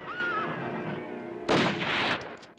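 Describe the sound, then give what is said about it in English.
Gunshots from a stagecoach driver and his companion firing into rocks, heard as a quick cluster of sharp cracks that follows a horse's whinny over a steady background rumble. “The coachman and his companion fire into the rocks.”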